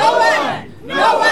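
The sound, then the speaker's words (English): A protest crowd chanting in unison outside the office of Canada's immigration minister: loud massed voices in two strong bursts separated by a brief dip. “This is the sound of a protest that took place on Monday outside the office of the Honourable Mark Miller”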